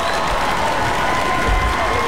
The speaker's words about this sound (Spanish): Eso es todo, aplauso para ti.